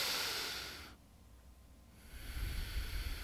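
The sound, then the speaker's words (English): A deep breath drawn in through the nose to fill the lungs, held for about a second, then slowly let out, as a relaxation exercise: a loud, airy inhale, a short quiet pause, then a long, breathy exhale to the end. “fill up the lungs, hold it for about a second, and slowly let that out.”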